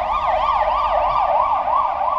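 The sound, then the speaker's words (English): An emergency vehicle siren wails in a fast, steady yelp, its loud tone swinging up and down several times in quick succession with no voices over it. “I love that siren. That siren I like. Why don't we have that siren in the States?”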